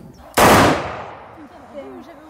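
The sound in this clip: A single loud gunshot from a firearm being test-fired outdoors over grass: one sharp, abrupt blast with a long fading rumbling tail and faint thin tones trailing after.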